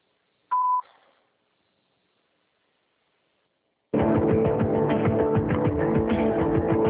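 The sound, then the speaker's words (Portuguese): A single short, high voicemail beep sounds after the recorded mailbox greeting. A few seconds of silence follow, then a loud, dense, continuous noise begins and holds to the end. “Sua chamada está sendo encaminhada para a caixa de mensagem e estará sujeita a cobrança após o sinal.”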